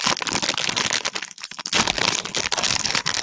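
A bag of chips crinkles and crackles as it is opened, with loud crisp rustling that runs almost throughout, dipping briefly near the middle before resuming.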